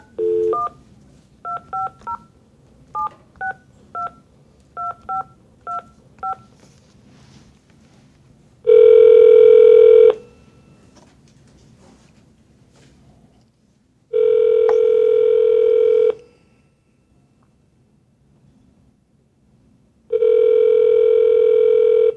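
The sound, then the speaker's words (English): Telephone keypad tones as a number is dialed: a quick series of short beeps, then three long, steady tones separated by silent gaps. “Let me just dial Mike in here.”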